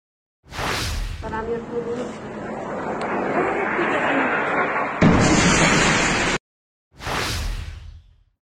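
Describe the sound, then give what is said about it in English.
Missiles fall in an air strike over the Deir ez-Zor area of Syria. A loud, sustained rushing roar lasts several seconds, then a short silence, then another loud, harsh burst. “So I just have a very quick video, the only one that I could find that wasn't terribly shaky, of at least a couple of the missiles falling in that Deir ez-Zor area.”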